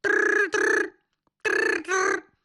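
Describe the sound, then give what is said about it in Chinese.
A telephone rings in two paired bursts: a double ring of bright, steady tones, a short silence, then a second double ring, moderately loud and heard alone. “电话铃响，邱娥国”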